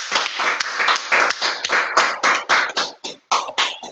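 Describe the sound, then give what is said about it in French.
Clapping from a French-speaking church audience acclaiming the Lord during a service, a series of sharp, fairly loud claps in an uneven rhythm that carries on for several seconds. “Est-ce qu'on peut acclamer au Seigneur?”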